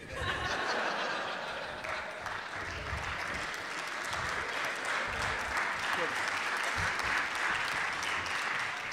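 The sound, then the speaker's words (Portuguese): An audience claps steadily and densely throughout, with chuckles and laughter mixed into the clapping. “Deixa eu aplaudir.”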